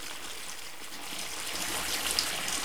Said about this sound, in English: Later, he's running water into the bath.